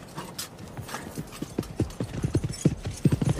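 Horses gallop with many rapid, uneven hoofbeats that clop in quick clusters, growing steadily louder and denser toward the end.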